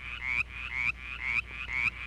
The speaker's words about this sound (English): The Mountain Chorus Frog.